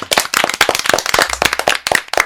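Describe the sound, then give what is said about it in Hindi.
Enthusiastic applause for the guests at the close of a radio show, loud, crisp claps from a small group in rapid succession, each hand strike sharp and distinct. “तो एक बार फिर से जोरदार तालियां सबके लिए।”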